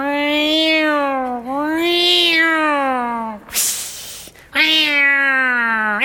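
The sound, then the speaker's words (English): A human voice imitates a cat fight with long, wavering, drawn-out yowls, then a harsh hissing burst, and then another loud yowl. “And so the cat's out in the yard and starting this cat fight, and so you would hear this,”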